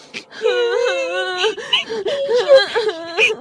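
Two children crying and wailing: loud, sustained high moans that waver in pitch, broken by short breathy gasps and sobs, continuing without pause throughout.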